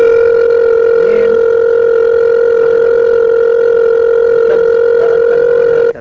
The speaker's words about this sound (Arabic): بيرن التلفون بفتح